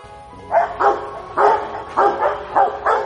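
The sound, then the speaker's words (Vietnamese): Several dogs barking in a street at night: a quick, uneven run of sharp, mid-pitched barks, loud and standing alone against a quiet background. “Vài con chó bị mất ngủ bắt đầu sủa loạn vang cả dãy phố.”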